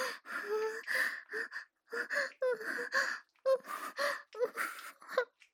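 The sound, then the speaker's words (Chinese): Heavy, rapid panting: many short, breathy gasps in quick succession, some with a voiced edge, fairly loud and uneven in rhythm with brief pauses between bursts. “还呼吸急促。是的，说话都费劲了，一直在大喘”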